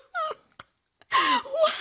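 A woman named Ferdous cries in short sobbing bursts, with wavering whimpers and catching breaths. A brief sob comes first, then near silence, then a longer stretch of louder, shaky weeping.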